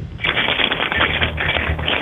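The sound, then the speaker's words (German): Keys are shaken and jingled nonstop, giving a dense, busy metallic rattle that fills the whole stretch at an even level with a thin, muffled tone. “indem du dir einen Schlüssel schnappst und einfach mal so rumklimperst mit dem Schlüssel”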